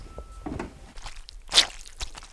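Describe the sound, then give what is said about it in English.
Wet squelches from a soaked chamois cloth worked for foley, a few short squishy slaps separated by quiet gaps, one noticeably louder than the rest. “You need something that's going to give you a wet sound because it's... Now, why chamois cloth? Why not It holds water.”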